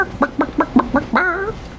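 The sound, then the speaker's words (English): A person imitating a chicken, with five short, clipped clucks in a steady rhythm, then a longer drawn-out cluck to finish, alone. “Michael Scott's impression of a chicken”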